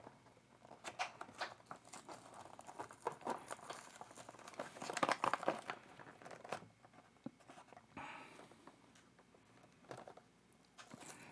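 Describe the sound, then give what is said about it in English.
Toy packaging is crinkled, rustled and torn open during an unboxing, giving many irregular papery and plastic bursts of varying loudness that cluster most densely toward the middle, with no talk over them. “I'm unboxing off camera.”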